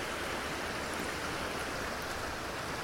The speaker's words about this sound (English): So the water thunders over, well, I say thunders, it shimmies over a little ford, little bridge